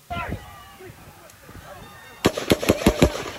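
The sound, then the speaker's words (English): Rapid gunfire recorded on a phone outdoors beside a building near grass: a quick burst of several sharp, loud, booming cracks in the latter half, after a stretch of quieter scattered noises. “And listen to the next rapid fire shots in.”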